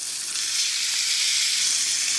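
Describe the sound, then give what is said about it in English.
Pork chops sizzling on a grill over extremely high heat: a dense, continuous crackling hiss that stays at a steady, fairly loud level throughout, with no talking. “It's time to flip those chops.”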